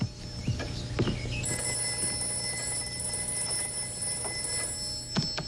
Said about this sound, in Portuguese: Ah, o telefone.